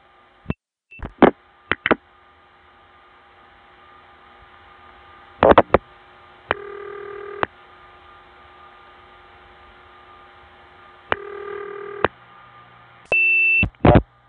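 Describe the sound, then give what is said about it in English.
Relay clicks and tone bursts from a crossbar 5 telephone exchange doing line link pulsing to a PBX after the last digit is dialed: scattered sharp clicks over a steady hum, with three sustained multi-tone bursts. “I'm about to dial the last digit, and when I do, you'll hear the distinctive bloop-to-clup, which means line link pulsing. The crossbar 5 will be dialing to the PBX.”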